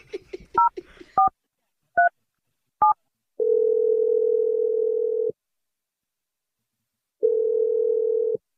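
A phone number is dialed to place a call: a quick run of short keypad beeps at varied pitches, then two long, steady low tones separated by a gap of silence.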